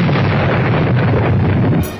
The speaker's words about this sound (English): Honoring the first child born to a British reigning sovereign for over 100 years, a royal salute is fired in Hyde Park.